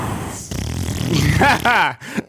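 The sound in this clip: A voice imitates a squeaky fart: a rough, buzzing stretch breaks into wavering, squeaking tones that slide downward, then cuts off abruptly, with a short final blurt.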